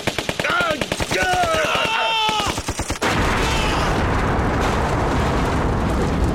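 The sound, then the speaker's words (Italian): Rapid gunfire sets off a bomb carried under a jacket: a fast rattling burst of shots, with a shouting voice over them, then a loud blast that gives way to a sustained roaring rumble. “Gli spari fecero esplodere la bomba”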